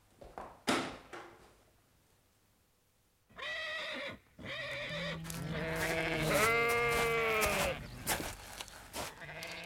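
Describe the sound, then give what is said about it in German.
Sheep bleating in a paddock: loud, wavering, drawn-out bleats that overlap and run on for several seconds, with a few brief knocks and bursts of noise before them. “Wie ich sehe, haben Sie auch einige Schafe auf der Koppel”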